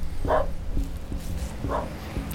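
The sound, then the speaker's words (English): A dog barks twice in short, sharp bursts, spaced over a couple of seconds, against a backdrop of faint rhythmic thumps and steady background noise. “Hi, dog.”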